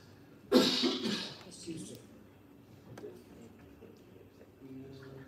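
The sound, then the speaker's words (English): One sharp, rasping cough bursts out loudly near the start and then fades to a quiet background. “I'm not sick. I started coughing tonight, and I had that fit on Sunday.”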